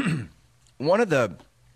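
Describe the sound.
A throat clearing mid-conversation: a brief throaty rasp, then a louder voiced clearing in two quick pushes, with quiet between.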